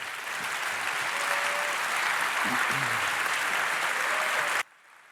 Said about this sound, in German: Please welcome with a warm applause, Fabian and Luca.